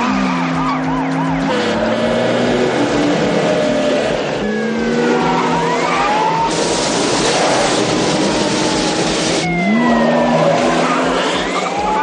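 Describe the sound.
A car engine roars and revs with tyres skidding as it weaves between crashed cars jammed on a road after a trailer accident in a 1990 action police film chase; loud, continuous, with shifting engine pitch.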